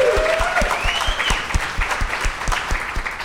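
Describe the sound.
Audience applause at a live comedy game show, a steady patter of clapping that holds at an even, moderate level throughout with no talk over it.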